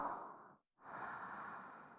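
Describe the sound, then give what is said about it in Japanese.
Slow, deep human breathing: two long, airy breaths separated by a brief silent pause, each a soft, steady rush of air, fairly loud and heard alone. “このままゆっくり深呼吸してみようか”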